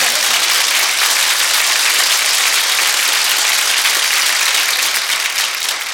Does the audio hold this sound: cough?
no